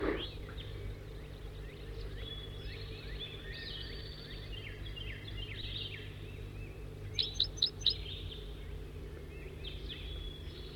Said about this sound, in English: Recording bird 70.